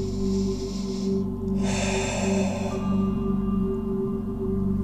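A single deep breath, slow and airy, drawn during a guided chakra meditation. It sits under a steady, loud low musical drone that runs through the whole clip, with no talk.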